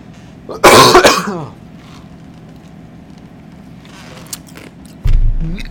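A person clears their throat with one loud, rough burst near the start, followed by a low, steady background hum and a dull low thump toward the end.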